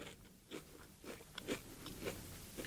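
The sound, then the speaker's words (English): Crunching on a Pringles fry snack: a few crisp bites followed by faint, brittle chewing crunches in an irregular rhythm, without talk. “Well, let me try the Pringle fry.”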